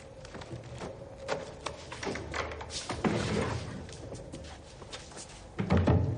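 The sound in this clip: Wooden crates being pried open in a thriller scene, a series of irregular wooden knocks, thuds and scrapes that grow heavier and louder toward the end.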